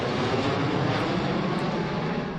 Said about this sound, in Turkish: Gecenin en görkemli anlarından biri Milli Marş sırasında yaşandı. 12 jetlik geçiş uçuşu yapıldı.